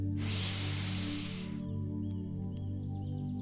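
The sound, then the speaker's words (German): A single deep breath drawn in through the nose: a broad, airy hiss lasting about a second and a half, then stopping, over a steady low hum. “Atme einmal tief durch die Nase ein”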